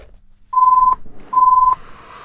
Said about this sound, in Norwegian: Der ringer telefonen.